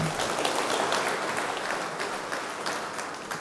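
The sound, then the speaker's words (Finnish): Audience applause welcoming a speaker at a church mission event: dense, steady clapping that carries on throughout and eases off slightly toward the end. “Ja annetaan hänelle myös lämpimät aplodit.”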